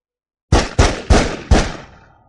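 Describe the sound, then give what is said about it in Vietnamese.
Four gunshots fired in quick succession, each a sharp, loud crack with a decaying tail, evenly spaced, the last one ringing out and fading away. “Liên tiếp 4 tiếng súng.”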